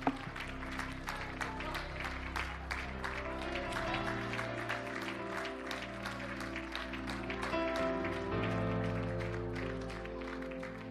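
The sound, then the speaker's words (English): Congregation clapping hands in praise during a church service, a continuous patter of many hands over sustained musical chords, fairly loud and steady for the whole stretch. “Would you one more time give the Lord a hand clap of praise and thanksgiving?”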